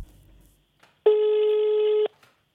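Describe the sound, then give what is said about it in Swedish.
A telephone ringback tone on an outgoing call: one steady, buzzy tone that holds for about a second, then stops and leaves near silence. “Och honom ska jag nu ringa.”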